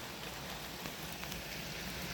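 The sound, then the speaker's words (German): Rain falls on a windowsill, a soft, steady, even hiss of dense patter with no breaks and no voices. “Und jetzt geht es weiter mit Regengeräuschen von meiner Fensterbank.”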